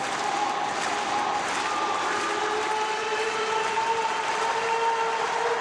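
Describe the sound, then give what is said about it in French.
More than 50,000 rugby fans clap at a stadium in Bordeaux. The crowd noise holds as a constant, dense roar of clapping and cheering through the whole stretch. “Donc, le grand clapping, le public venu très nombreux, plus de 50 000 personnes évidemment à Bordeaux.”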